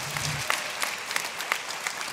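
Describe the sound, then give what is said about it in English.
A church audience claps during a sermon. Scattered, faint claps pop over a soft, continuous wash of applause. “Yeah, you can clap. If you're going to clap, go all in.”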